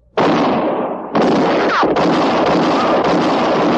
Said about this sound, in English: You've killed me! I'm shot! It was Katie Fulton's shot that missed Mattie Silks and hit Court Thompson.